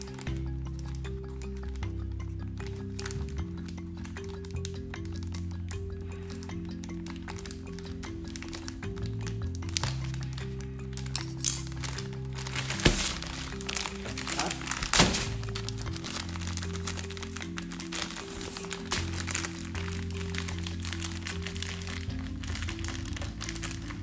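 Crinkling and crumpling plastic as the seal is opened on a replacement HEPA filter for a Bardi smart air purifier, a long continuous rustle with many sharp cracks and thunks scattered throughout and a brief louder burst midway.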